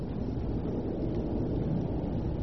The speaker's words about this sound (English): That airplane gets in my way.